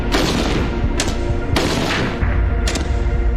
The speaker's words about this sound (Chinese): 100米的距离射击啤酒瓶，五六式冲锋枪交出了5发4中的不俗成绩。